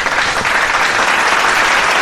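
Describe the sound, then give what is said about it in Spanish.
Audience applause during a tribute to composers, a loud, dense and continuous spatter of clapping with no clear breaks across two seconds. “Pausa, aplauso del público.”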